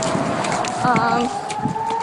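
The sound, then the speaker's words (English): An air raid siren sounds during an air raid, a steady, sustained tone that climbs slightly in pitch across the whole stretch, with a brief warbling overtone partway through, over a dense, noisy background. “The sirens start.”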